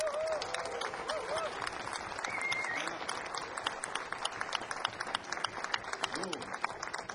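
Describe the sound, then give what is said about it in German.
An audience in a small concert venue applauds before a band's show. Dense, steady clapping fills the whole stretch at an even, fairly loud level. “Dafür mal einen Applaus.”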